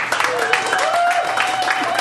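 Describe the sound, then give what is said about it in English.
Comedy club audience applauding the bartender, a short burst of clapping mixed with crowd noise and a sustained tonal sound running through it. “How about a round of applause for Jill, the bartender?”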